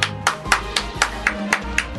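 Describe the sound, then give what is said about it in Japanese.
Hand clapping to welcome a guest: seven crisp, evenly spaced claps about a quarter second apart over a steady low hum. “パチパチパチパチパチパチパチ”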